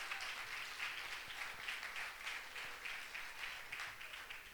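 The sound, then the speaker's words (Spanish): Faint applause from an audience at a religious service: a dense, even patter of many hands clapping keeps a steady level for several seconds, with no talking over it. “Denle un aplauso y yo descanso un poquito.”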